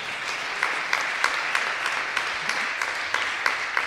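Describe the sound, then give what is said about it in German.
Audience applause after a song at a live music event, a dense, steady wash of clapping sustained across the whole few seconds with small recurring peaks. “Ja, darf man auch klatschen, aber muss man nicht.”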